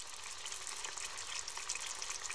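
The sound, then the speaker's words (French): Beaten eggs sizzle in butter in a frying pan, a steady, dense crackling hiss that holds an even level throughout with no talk. “Je mets un peu de beurre dans la poêle. Je verse les œufs battus.”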